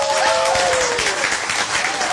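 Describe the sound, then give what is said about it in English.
Steady applause with continuous, dense clapping that stays at an even loudness from start to finish. “we must give him a round of applause”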